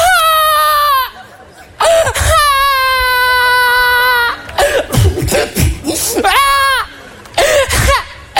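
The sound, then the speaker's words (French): A person cries loudly, with long, high, strained wails broken by shorter sobbing bursts and gasps, the rhythm uneven throughout. “Ça va, arrête de pleurer.”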